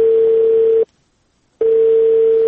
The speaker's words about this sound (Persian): بله سر، تلفون قطع شد.